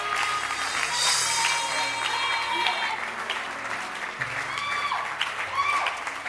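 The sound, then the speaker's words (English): A church audience claps its hands at a service, with dense, sustained applause running throughout. Scattered voices mix into the clapping. “Can you clap your hands and let's have the church service?”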